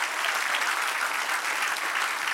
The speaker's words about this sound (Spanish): Denle un aplauso al que reina.